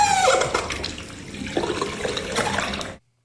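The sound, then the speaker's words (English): A squeaky bathroom tap turning gives a brief high whining squeal, then water gushes and splutters through it in a loud, uneven rush that cuts off abruptly. “It's the squeaky tap in the bathroom. It's a tap? It's just a tap turning. The tap turns. The tap turns, splutters, and makes that noise.”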